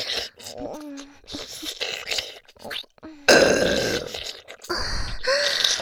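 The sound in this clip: Burping: a series of low, croaking belches of varying length, several short ones first, then longer, rougher and louder ones in the second half.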